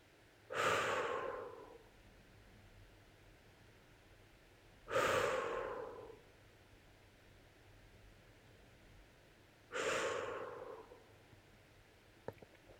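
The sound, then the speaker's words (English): Three slow exhales through softly pursed lips during a relaxation meditation, each an airy, rushing breath that starts strongly and fades, separated by quiet pauses. “take a deeper breath, and as you exhale, softly purse your lips”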